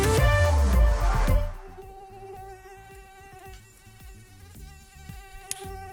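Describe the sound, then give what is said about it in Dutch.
A mosquito whines around the ears at night: a thin, high, harmonic buzz that is strong at first, then settles to a quieter, steady drone with slight wavering. “Dit vervelende gezoem midden in de nacht. Een mug die rond je oren aan het zoomen is en je kan hem maar niet vinden.”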